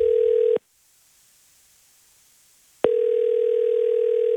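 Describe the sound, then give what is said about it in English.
A telephone dial tone hums steadily, then cuts out suddenly into about two seconds of silence before the same steady tone returns. “Shall we ring them and tell them the good news? Absolutely. All right. Come on. Let's dial away.”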